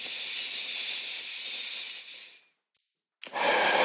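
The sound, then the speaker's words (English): A deep breath drawn in during a guided meditation, a steady airy hiss lasting over two seconds that fades out, then after a brief pause another breathy rush of air. “take a deep breath in with me”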